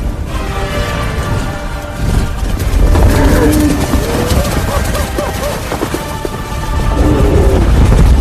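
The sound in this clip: A herd of large animals stampedes, producing a dense, loud rumble of pounding hooves and scattered heavy thuds that runs unbroken throughout and swells slightly in the second half.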